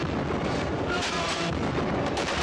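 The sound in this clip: Cannon fire in battle, with all guns firing together: a dense, continuous roar of overlapping booms at steady loudness, with no distinct gaps between blasts.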